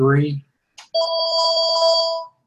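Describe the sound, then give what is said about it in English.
A phone ringtone sounds as a single sustained electronic trill lasting about a second, right after a brief spoken word. “Who's got a phone?”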